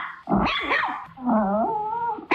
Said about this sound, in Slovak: A to, že dnes je Medzinárodný deň psov, tak presne takto to oslavuje Labrador. Aj Čivava oslavuje.